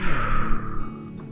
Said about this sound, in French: Prends une grande inspiration et une expiration.